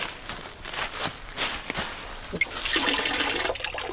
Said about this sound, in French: Tu vois, ici il y a plein de sources comme ça.